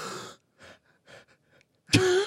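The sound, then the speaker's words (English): Deep breathing: a few airy breath bursts, the first longest and the middle ones shorter and softer, then a sudden loud, sharp gasp that ends in a voiced tone. “At the top of his breath, he breathed out just a little bit amount of air and inhaled again several times”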